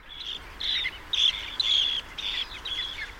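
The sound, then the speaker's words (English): A flock of dunlin, a sandpiper species, calling with repeated high, thin chirps and buzzy notes in overlapping bursts. The calls are steady and fairly clear over a quiet background, with no voices. “For example, Dunlin fly around in flocks to evade aerial predators like falcons. The Dunlin is a species of sandpiper.”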